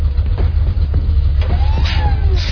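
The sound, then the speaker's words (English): A car pulls into a driveway, its engine a steady, loud low rumble with faint higher whines and squeaks over it. “Is that in my driveway? That's my ride.”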